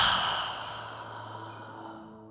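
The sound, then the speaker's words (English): A long, deep breath is let out through the mouth during a guided breathing exercise. The soft, airy whoosh slowly fades as the breath runs out. “So breathing in through the nose, filling up body, heart, spirit. Open the mouth and let it out.”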